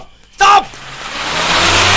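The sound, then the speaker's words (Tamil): A brief voice is followed by an approaching vehicle whose engine and road noise swell steadily louder. “ஒரு வண்டி வருது”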